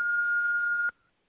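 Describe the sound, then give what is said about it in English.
An answering machine beep sounds once as a single steady, high electronic tone lasting just under a second, then cuts off abruptly into near silence. “Please leave your message at the beep.”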